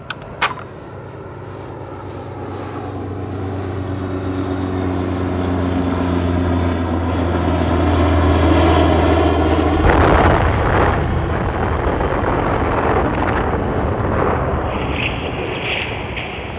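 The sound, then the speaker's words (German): An American airplane dropping an atomic bomb on Hiroshima: a droning engine with layered tones swells gradually for about ten seconds, then a sudden loud explosion breaks into a broad, roaring rumble that slowly fades. “Warf ein amerikanisches Flugzeug eine Bombe auf Hiroshima ab und machte die Stadt damit für den Feind unnutzbar.”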